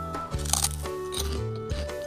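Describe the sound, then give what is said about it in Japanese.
A crisp crunchy bite into a thick, brown, sesame-sprinkled kinpira gobo flavoured snack, a couple of short crackly bursts heard over soft, steady background music. “うんサクサクだしめちゃめちゃきんぴらごぼうもうそのまま本当にきんぴらごぼうの味がそのままですね”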